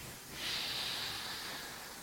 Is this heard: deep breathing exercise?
yes